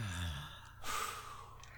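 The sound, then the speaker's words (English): A deep breath drawn in by a group taking a moment to reset together: a short voiced tail, then a soft, breathy inhale that lingers, faint and without talk. “One, 3, 2, 1, deep breath.”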